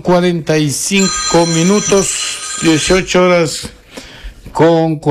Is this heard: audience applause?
no